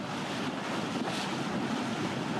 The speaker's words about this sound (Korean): 선착장에서 보트를 타고 바위 위 성모 섬을 찾아갑니다.